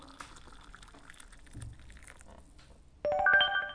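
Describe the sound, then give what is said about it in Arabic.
A phone message notification tone: a short, bright melodic chime of a few tonal notes rising suddenly out of near silence near the end. “رسالة لنشوف من مين.”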